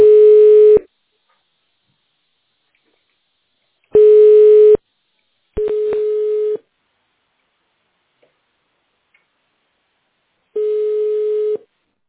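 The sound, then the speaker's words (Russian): Telephone line tone while a call is transferred: four steady, loud, mid-pitched beeps, each lasting under a second, separated by uneven silent gaps. “Пожалуйста, оставайтесь на линии. Звонок переводится на менеджера.”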